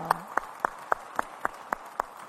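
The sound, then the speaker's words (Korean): A church audience stands and claps together in unison, with eight evenly spaced, crisp claps forming a steady rhythmic beat. “우리 성도님들께서는 모두 다 자리에서 일어나셔서 기립해서 함께 박수하시겠습니다.”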